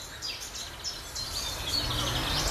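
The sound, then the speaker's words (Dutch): A nightingale sings on the Gooimeer shore at Huizen, with bright, high warbling phrases repeating over a steady hiss of background noise. The song is fairly faint throughout. “de eerste nachtegaal. Opgenomen aan de Gooimeerkust te Huizen.”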